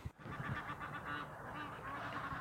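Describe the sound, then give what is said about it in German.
Egyptian geese squabble in a continuous, loud chorus of harsh, overlapping honks and cackles that keeps up without a break. “Und das sind jetzt? Nilgänse. Nilgänse, okay. Die streiten gerade.”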